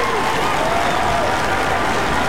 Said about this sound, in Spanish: Este aplauso es para ti, disfrútalo por ser el primer lugar.